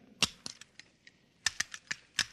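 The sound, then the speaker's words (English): Sharp metallic clicks come as a firing pin is put back into a pistol, a series of about ten crisp, separate snaps in an uneven rhythm with quiet gaps between them. “Now, let's see you put back the firing pin.”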